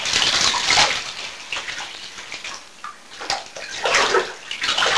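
Water splashes and pours as a child is rinsed in a bathtub. The uneven sloshing and gushing swells in louder bursts near the start and end.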